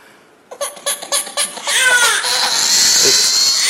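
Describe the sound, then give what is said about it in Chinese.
A hungry baby cries, beginning with a few choppy, rhythmic sobbing bursts that break into a loud, sustained, high-pitched wail. “这咋还哭？咋的？哭了？哦，饿了这。”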